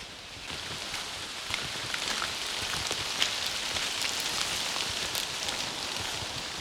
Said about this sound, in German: Ist das jetzt richtig Regen oder nur Wind?